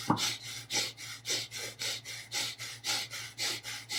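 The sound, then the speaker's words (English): Rapid, rhythmic skull-breath breathing exercise: a long, evenly paced series of sharp, forceful breathy exhales, soft and steady, with no talk. “Some people do the skull breath really fast, and they like, and that's crazy. It's not turbo. Methodical.”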